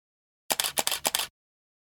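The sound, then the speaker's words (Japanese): A rapid burst of several crisp camera shutter clicks in under a second while photos are taken of cream cheese snack dishes, with silence before and after. “写真撮りますか、なんかもうこんな感じで撮ってみようかな。”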